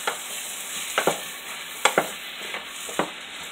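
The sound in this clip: A spoon stirs garam masala and chicken masala into chicken pieces in a frying pan, making a few short scraping clatters at an uneven pace over a soft, steady sizzle.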